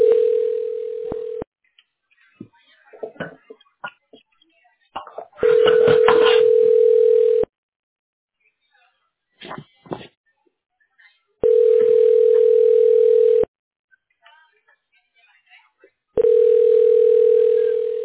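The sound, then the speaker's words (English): A telephone line tone sounds while dialing through to an agent, coming as four long, steady beeps separated by gaps of a few seconds. A person talks during the pauses between the tones. “So let's go ahead and dial in real quick. Give me a ring and then the agent will come online, okay?”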